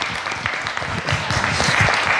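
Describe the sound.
Members of a church audience clap in praise during a sermon, a brisk, continuous patter of hands that grows a little louder toward the end.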